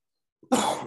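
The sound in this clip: A single sharp cough bursts out after a brief soft catch of breath, fairly loud and heard alone.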